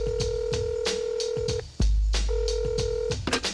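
Telephone ringing tone heard down the line: a long steady tone, a short pause, then a second shorter tone, with light tapping clicks throughout.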